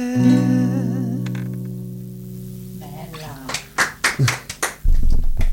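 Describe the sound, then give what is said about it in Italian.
Small applause from two people in a radio studio after a live performance of an unreleased song: a sung note fades out, a voice speaks, then a handful of sharp, quick hand claps follow. “Applauso piccolo, io, perché siamo solo in due, ma in realtà è gigante”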